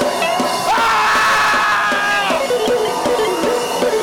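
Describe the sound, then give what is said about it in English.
A church audience at a thanksgiving service shouts together in loud, sustained yells and cries. The massed voices rise to a peak and then slide back down over a few seconds, with no pauses. “Somebody practice your shout now.”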